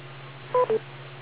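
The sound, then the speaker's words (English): Beep tone on an amateur radio net, two short electronic tone bursts in quick succession over a faint steady hum on a narrow-band radio channel. “Wait for the beep.”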